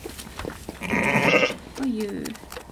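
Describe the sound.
A ewe bleats anxiously, calling for her lamb with a loud, wavering cry and then a shorter, lower bleat, while people talk quietly alongside.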